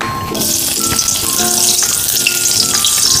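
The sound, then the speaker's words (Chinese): Scallion and ginger slices sizzle and crackle in hot oil in a wok, a steady dense frying hiss with faint tonal clinks, loud and continuous with no talk. “开火热锅，倒入油，油热了，倒入葱姜片爆香”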